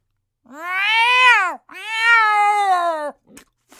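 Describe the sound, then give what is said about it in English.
A cat meows twice, each cry loud, long and drawn out, its pitch arching up and then sliding down. A short pause separates the two calls, and a couple of faint clicks follow. “Feline invasion coming your way.”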